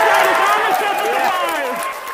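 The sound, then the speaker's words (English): Cheering from scientists at the Jet Propulsion Laboratory in Pasadena, California, as NASA's InSight spacecraft lands on Mars. Many overlapping voices whoop and shout together in a sustained, loud burst that eases slightly toward the end. “Those are some very happy scientists at the Jet Propulsion Laboratory in Pasadena, California, cheering as the NASA spacecraft InSight landed on Mars.”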